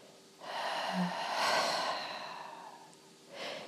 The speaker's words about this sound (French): relâchez tout par la bouche.